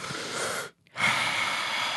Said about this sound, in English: Everybody take a deep breath.